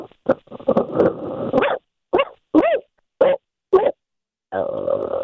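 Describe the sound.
A man imitating a dog with his voice: a rapid burst of yips and barks, then four short separate bark-like yelps, ending in a sustained growling whine.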